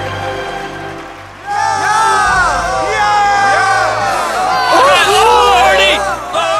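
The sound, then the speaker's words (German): A crowd cheers for a new king, a loud wash of shouts, whoops and excited children's cries that surges up after a quieter start and stays lively. “Das Volk jubelte ihm zu und erkannte ihn als neuen König an.”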